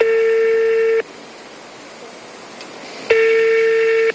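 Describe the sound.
Ringback tone of an outgoing telephone call: two long, steady electronic beeps about a second each, separated by a gap of near silence.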